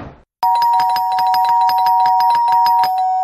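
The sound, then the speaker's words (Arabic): An apartment doorbell held down rings without a break: a loud electric ringing with rapid repeated strikes over a steady high tone, lasting about three seconds after a brief quiet start. “كمل طلوع لحد ما وصل لشقة تانية وفضل معلق ايده على الجرس.”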